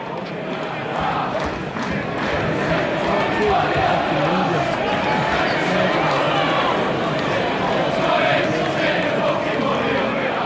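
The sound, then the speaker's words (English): Crowd noise fills a small football stadium in Manchester, a dense, continuous roar of many voices shouting and chattering at a steady, loud level throughout. “This is the sound of Broadhurst Park, an act of Mancunian defiance.”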